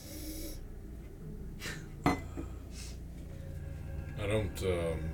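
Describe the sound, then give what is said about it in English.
A person inhales loudly through the nose in a short, breathy rush. Speech runs around it, and a single sharp clink is heard partway through. “I inhale loudly.”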